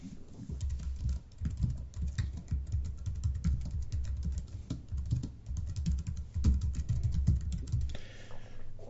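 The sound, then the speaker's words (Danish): Rapid typing on a computer keyboard while editing a wiki page: a dense, steady patter of many keystroke clicks that runs almost unbroken before easing off near the end. “hvis jeg vil ned på den næste linje, så er det ikke nok, at jeg trykker på Enter en gang.”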